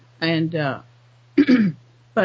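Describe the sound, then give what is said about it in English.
Throat clearing from a person with a throat problem: a few rough, voiced bursts with a strained tone, separated by a pause, over a low steady hum. “Excuse me, I've got a little throat problem here. Let me clear it up.”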